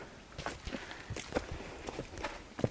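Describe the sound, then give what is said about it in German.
Footsteps climbing a staircase, a series of soft, uneven thuds and scuffs at an irregular walking rhythm, fairly quiet and with no talking. “So, Treppe rauf.”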